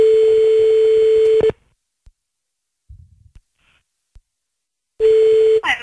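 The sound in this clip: Telephone line tone while calling someone back: two long, steady, mid-pitched ringing tones are separated by a stretch of near silence broken by a few faint clicks. The second tone is cut short.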